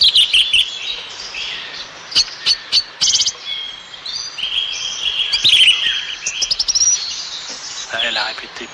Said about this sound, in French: Voilà, des appels les plus célèbres de la grive.